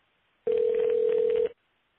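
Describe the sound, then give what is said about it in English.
An electronic telephone ring: one steady, even tone that holds for about a second and then stops, with silence before and after. “Anyway, back to the ringing.”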